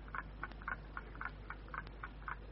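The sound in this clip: Faint, steady ticking from a bomb, with many evenly spaced dry clicks in a regular rhythm against a quiet, low hum.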